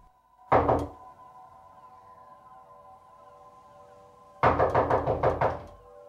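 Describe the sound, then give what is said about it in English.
Knocking on a bedroom door in a care home: a single short knock, then after a long pause a quick run of several raps, over a steady sustained tonal drone with no voices. “There's a rap on James's bedroom door.”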